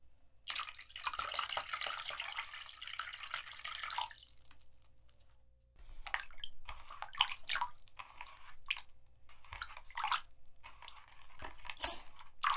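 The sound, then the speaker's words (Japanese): Freshly boiled hot water is poured in a faint, steady splashing stream for a few seconds, then breaks into intermittent trickles and drips. “暑いのでお気をつけください。先ほど沸かしたばかりですから。 ありがとうございます。これを注いで、”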